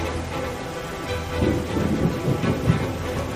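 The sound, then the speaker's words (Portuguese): Heavy rain falling in a storm, a dense steady hiss with low rumbling underneath that swells louder after about a second and a half and stays strong to the end. “a chuva está cada vez mais forte, cada vez mais água ali naquele lugar.”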